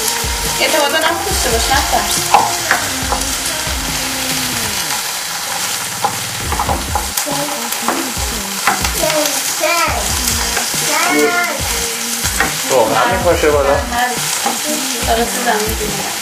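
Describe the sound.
Food frying and sizzling in oil while being stirred: a loud, continuous crackling hiss broken by scraping stir strokes, with people talking over it.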